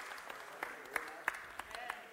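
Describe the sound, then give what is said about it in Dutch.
An audience starts clapping during a talk, with scattered, faint claps that never build into full applause under a man's speaking voice. “Oh, beginnen ze zo te klappen.”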